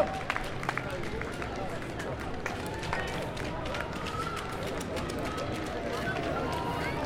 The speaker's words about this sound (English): Yeah, it's pretty much a continuous stream now of runners.